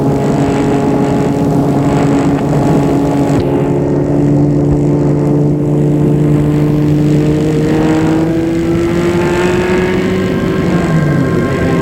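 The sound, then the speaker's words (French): A car engine drones steadily as the vehicle pulls away. Its harmonic hum holds level, then its pitch climbs gradually toward the end. “Puis, il part en voiture.”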